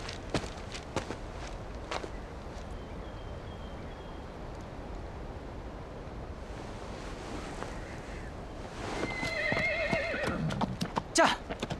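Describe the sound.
Horse hooves clip-clop irregularly during a ride, with faint wind noise. A whinny rings out near the end.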